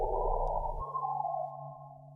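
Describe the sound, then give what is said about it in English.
A synthesized tone stands for a single sunspot, made by software scanning solar magnetic maps: a sustained, buzzy, harmonic drone whose low rumble cuts out partway while a steady midrange band continues and slowly fades. “I made a software synthesizer that scans through the map and generates a sound like this for each sunspot.”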